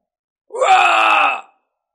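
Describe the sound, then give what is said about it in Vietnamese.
A single agonized scream from an ambusher struck down and disintegrating in a fantasy battle. It is a drawn-out, moaning cry about a second long, loud and alone, with no other voices. “Một tiếng hét thảm vang lên”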